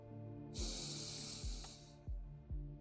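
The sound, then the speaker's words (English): A slow, deep inhale drawn through the nose during a guided stress-relief breathing exercise, a steady airy hiss lasting about one and a half seconds over soft low background tones with periodic dull thuds. “So take an inhale through the nose very slowly. Imagine you're drawing the breath in from the feet, leading into the legs, the belly, the chest, and then the head. First inhale with me.”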